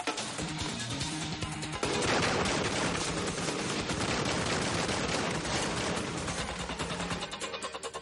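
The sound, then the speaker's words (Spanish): Gunfire exchanged between two men taking cover behind the walls of a room: loud, continuous cracks and rapid bursts overlap densely for the whole stretch without a pause. “Ethan y Sean intercambian disparos a la vez que se cubren detrás de los muros de la sala.”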